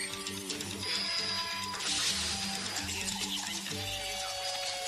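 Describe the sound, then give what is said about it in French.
A short jingle opens a Wiki Random segment, a dense, steady layer of sustained electronic tones mixed with whirring, printer-like mechanical clicking that runs without a break for about five seconds, with no voices. “Allez, c'est parti pour le jingle. Jingle wiki random.”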